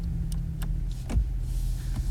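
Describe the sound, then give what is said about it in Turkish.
Low, steady rumble of a car engine and road noise as the car is brought to a stop, fairly quiet and even, with a few faint clicks above the hum. “Neden arabayı durduruyorsun?”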